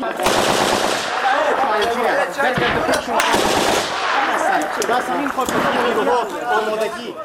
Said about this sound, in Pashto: وسلوال یو یو خو افغان ځواکونه پریمانه ډزې کوي، خو هیڅوک نه پوهیږي چې مرمۍ چیرې ځي او پر کومه سیمه لګیږي.